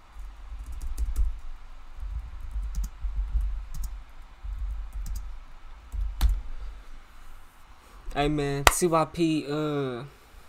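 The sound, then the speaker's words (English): Irregular clicks of fingers typing a name on a computer keyboard, a quick uneven run of key taps, followed near the end by a voice speaking briefly. “I'm gonna go to what's his name video and type in his name.”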